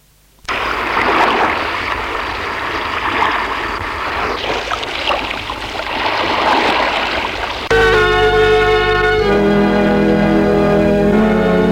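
A rough, cold sea churns with a loud, broad rushing wash of waves that lasts several seconds, then gives way to sustained musical tones.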